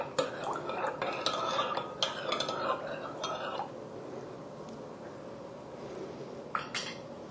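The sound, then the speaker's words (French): Salt being stirred into lukewarm water with a utensil: a few seconds of quick scraping clinks against the vessel, then a quieter stretch with one more clink near the end. “Pour l'eau tiède, une tasse et demie. Alors on incorpore ici notre sel. On mélange.”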